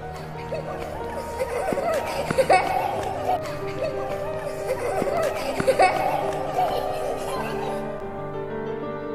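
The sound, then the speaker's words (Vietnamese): Children run back and forth, laughing and chattering, a busy mix of young voices with bursts of laughter rising and falling throughout. “Tùng nghe thấy có tiếng tiếng trẻ con cứ chạy qua chạy lại, cười cười nói nói”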